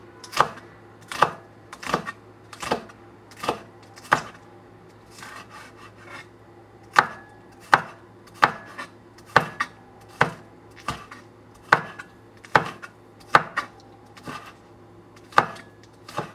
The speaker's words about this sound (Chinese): 那葱的部分其实是最后点缀用的，所以我们来切成呃葱末，每一片大概就是零点二公分左右就可以了。